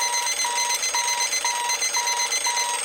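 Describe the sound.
An alarm clock rings with six steady, high-pitched electronic beeps in an even rhythm over a continuous bright buzzing tone.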